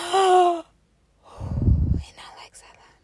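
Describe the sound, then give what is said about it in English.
A deep breath drawn by a speaker pausing mid-talk: a brief voiced sound, then a long, rushing breath, then a softer, breathy release. No words are spoken. “Hold on, let me take a deep breath and then I'll come back to y'all.”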